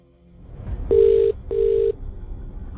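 A telephone ringback tone plays as a radio host calls a contest winner: two short, steady, mid-pitched rings separated by a brief gap, loud and clear with no voices.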